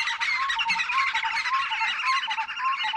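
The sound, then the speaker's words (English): Early-morning bird calls in the African bush: many high squawks, chirps and whistles overlap in a dense, steady chorus that stays loud throughout. “Early mornings in the African bush are filled with bird calls and may sound like this.”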